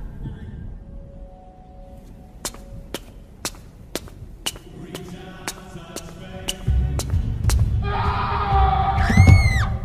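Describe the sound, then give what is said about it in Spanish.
People screaming in a terror scene: a run of sharp, evenly spaced cracks gives way to a swelling, noisy roar. High, wavering cries rise and fall at the end. “¿Qué coño es eso? Son gritos.”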